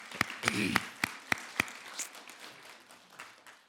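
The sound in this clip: An audience applauding to welcome a couple: about six sharp, distinct claps ring out first, then thinner, scattered clapping trails away softly.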